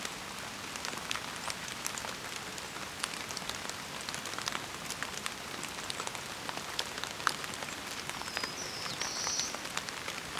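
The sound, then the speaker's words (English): Light rain patters steadily on surfaces in an even, dense hiss of tiny droplet ticks, with a faint high bird call briefly rising above it near the end. “Rain is letting up a little bit.”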